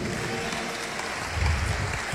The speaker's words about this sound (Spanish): Aguanta un aplauso a Cristo, ahí hay una vida.